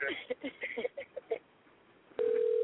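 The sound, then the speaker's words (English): A telephone line tone as a caller dials back in to a call: after a few seconds of muffled, band-limited talk, a steady, loud, mid-pitched tone starts abruptly and holds to the end. “She might be trying to call herself, dial herself back in.”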